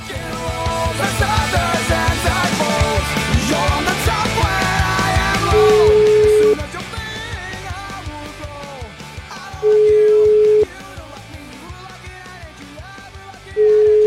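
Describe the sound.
Telephone ringback tone while a call is placed to an animal welfare association: three long, steady, mid-pitched beeps, evenly spaced, over continuous music, the last one cut off at the end.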